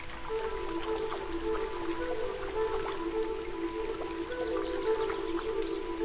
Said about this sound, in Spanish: El agua busca nuevos caminos a través del bosque.